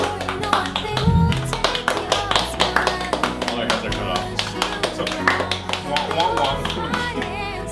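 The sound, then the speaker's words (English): Rhythmic clapping from a small group, with quick, evenly spaced claps running the whole way through and voices mixed in underneath. “Please clap with us. Standing ovation.”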